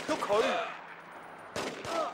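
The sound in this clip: A few sharp gunshots ring out in a shooting video game, brief cracking bursts mixed with a man's voice.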